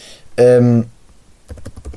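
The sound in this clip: Typing on a computer keyboard: a quick run of clicking keystrokes fills the final half second, after a brief voiced sound earlier.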